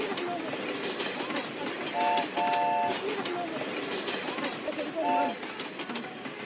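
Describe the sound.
A train brakes to a stop, a rattling rail clatter broken by short bursts of high, steady squealing tones partway through and again near the end.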